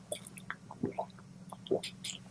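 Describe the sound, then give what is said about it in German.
A person taking a quick drink: soft wet sips, small mouth clicks and swallows in a loose, uneven series, quiet throughout with no talking. “Sekunde, ich muss kurz was trinken.”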